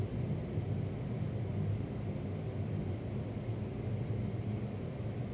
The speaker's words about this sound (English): Number one, propeller cycling at 1000 RPM.